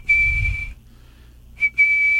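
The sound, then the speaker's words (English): A person whistles in imitation of a Mississippi kite's two-part call: a steady, sustained high whistle, a pause, then a brief short note followed by another long, level whistle. “my major question was the sound of a Mississippi kite. Yeah, yes, it's a whistle. It's a almost a two-part whistle, like a”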